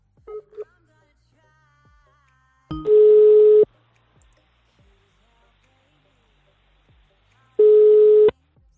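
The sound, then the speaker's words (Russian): Telephone tones as a call is dialed to a debt collector's saved number: a few faint short beeps, then two loud, steady tones about a second long, separated by a quiet gap of several seconds. “Сейчас я наберу, короче, по номеру, который я сохранил, хочу этой твари дозвониться. Вот он, по-моему, этот номер.”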